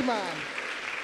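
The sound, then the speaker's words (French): An audience applauding and cheering, a brief voice at the start giving way to a dense, steady wash of clapping and crowd noise. “Amen, acclamez le Seigneur.”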